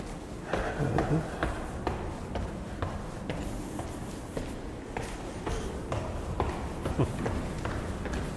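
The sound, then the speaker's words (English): Footsteps climb the stairs inside a library, a steady run of many soft taps and scuffs at a brisk, even pace. “But I'm going to walk up the stairs to the third floor because that's the healthy thing to do.”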